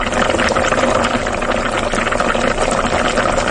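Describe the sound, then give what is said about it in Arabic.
Hot oil boiling and sizzling in a pan, a loud, dense, steady crackling hiss with rapid irregular pops throughout. “صوت زيت مغلي. زيت مغلي”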